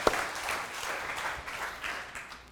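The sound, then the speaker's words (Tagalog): A church audience applauds during a sermon: a dense, steady patter of many hands clapping, sustained at an even level for about two and a half seconds. “Palakpakan niya po natin si Lord.”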